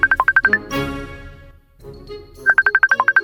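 Mobile phone ringtone for an incoming call, sounding as rapid trains of bright, high electronic beeps in two loud bursts separated by a short pause.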